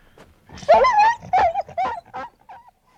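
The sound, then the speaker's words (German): A dog howls and whimpers in a wartime drama scene after gunshots, with loud, wavering whines in several bursts whose pitch rises and falls, alone without voices. “Die gefangenen Kameraden, die neben Pierre gingen, sahen sich ebenfalls nicht nach der Stelle um, von woher die Schüsse und dann das Heulen des Hundes gekommen waren.”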